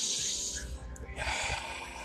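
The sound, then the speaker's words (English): Deep breathing through the nose, heard as two long, airy rushes of breath separated by a short pause. The breaths are steady and fairly loud, with no talk. “Simply breathe deep. Exhale, inhale through your nose.”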